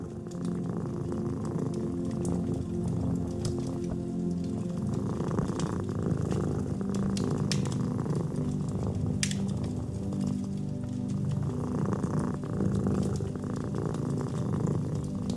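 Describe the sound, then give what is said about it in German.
A cat purring: a steady, low, continuous rumble that runs unbroken, with soft crackling from a fire mixed in. “Das leise Knistern des Feuers und dein eigenes Schnurren sind die einzigen Klänge, die den Raum erfüllen.”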